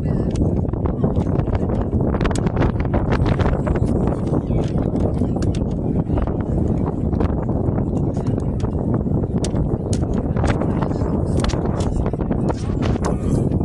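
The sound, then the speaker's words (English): Gusting wind at a high school baseball field buffets the microphone with a constant, loud, low rumble and roar that never lets up. “A lot of wind here all of a sudden. I'm eating a lot of dust here.”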